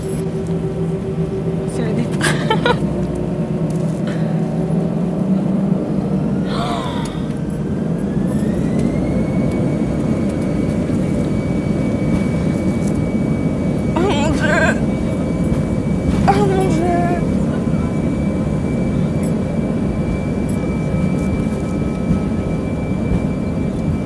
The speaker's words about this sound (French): Merci de vous préparer pour le décollage.